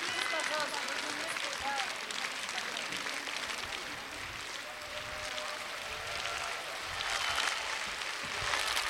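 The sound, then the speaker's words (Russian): Audience applause at a live concert of a festival of young choirs and soloists, a dense, steady wash of clapping lasting the whole stretch, with voices mixed in. “Молодцы! Очень важно, потому что, видите, многие наши замечательные юные артисты так прислушиваются к вашим аплодисментам”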